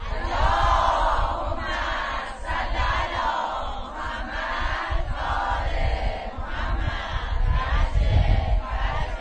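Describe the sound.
A large crowd at a night camp gathering chants salawat in unison, a loud, dense, sustained mass of voices that swells and holds steady throughout.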